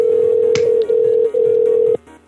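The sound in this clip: A telephone ring tone: a steady mid-pitched electronic tone with two brief dips, holding loud and even before cutting off near the end to a faint remainder.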